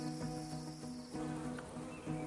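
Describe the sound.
Bees buzzing as they gather pollen from flowers: a steady, continuous low droning hum with a rich, layered tone that swells and dips slightly throughout, with no voices.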